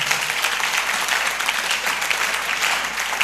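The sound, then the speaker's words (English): An audience claps during a religious sermon: a dense, continuous patter of many hands that stays fairly even in loudness throughout, with no voices standing out. “I didn't say clap, so if you are clapping,”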